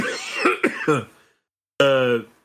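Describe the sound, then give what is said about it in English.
A person coughs in a rough cluster of a few harsh bursts, then after a short pause gives one longer, strained, throaty cough. “You shouldn't be coughing.”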